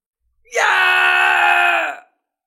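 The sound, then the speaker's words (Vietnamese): A badly wounded man screams in pain: one sustained, harsh, strained cry lasting about a second and a half, loud and alone, cutting off sharply. “Xích Mông Hoàng hét thảm, hiển nhiên đã bị thương nặng.”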